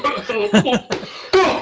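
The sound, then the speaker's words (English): A few loud, harsh coughs land right into the microphone, short bursts separated by brief pauses. “Sorry for coughing into the microphone there.”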